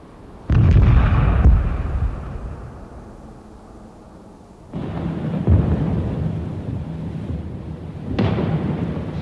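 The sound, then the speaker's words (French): Heavy artillery guns fire from the rear lines in wartime: three deep, heavy booms, each followed by a long rolling rumble that fades before the next blast, with no voices. “Alors les gros canons de l'arrière se sont mis à tirer pour que tout le monde sache bien que la guerre continuait”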